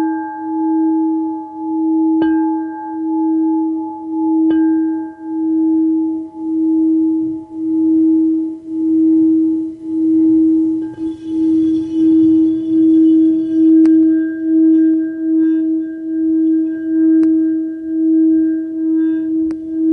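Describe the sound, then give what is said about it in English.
A kyanite singing bowl rings with one sustained, clear mid-pitched tone that pulses in slow, regular waves of loudness, with faint higher overtones and a few soft taps along the way. “A bowl that's made with kyanite, really grounded. It's good for absorbing stuck energy. So if you have any energy you need to release, you can release it into this sound.”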